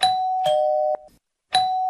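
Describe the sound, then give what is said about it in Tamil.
A doorbell rings as it is pressed at a house: clear sustained electronic chime tones, a pair of notes followed by a short silence, then the chime starts again. “போய் calling bell அமுக்குவோம்.”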